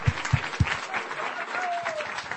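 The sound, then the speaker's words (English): Audience applause welcoming a guest onto a stage: dense, steady clapping through the whole clip, with a few heavy low thumps at the very start. “let's give him a warm welcome and a round of applause, if you would.”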